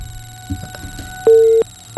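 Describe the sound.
Beeps of a dropped telephone call on a phone-in line: a faint line hum and scattered clicks, then a steady mid-pitched tone lasting about a third of a second, with another tone starting right at the end.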